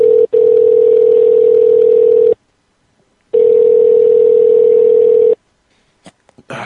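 Telephone line tone while calling a cell phone again: a loud, steady single-pitched hum in two long pulses of about two seconds each, separated by a one-second gap, then a few faint clicks.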